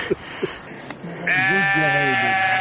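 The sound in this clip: A sheep bleating in the mountains: a few faint knocks, then one long, loud, wavering bleat that holds to the end.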